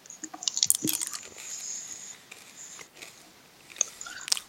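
Skittles candy is bitten and chewed in sharp, crunchy bursts, a quick cluster of crunches early on and then a few softer chews and a late crisp bite, with no talking.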